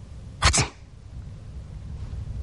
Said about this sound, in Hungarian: tüsszentett, amint tetszik látni. Tüsszenteni nem szégyen sehol.